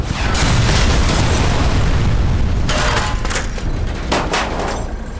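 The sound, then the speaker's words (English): An RPG rocket strikes and explodes near a Hummer with a loud, sustained booming roar and heavy low rumble. The blast fills the whole clip, with a few sharper crackling bursts breaking through toward the end. “I ducked down as the rocket hit somewhere to our left,”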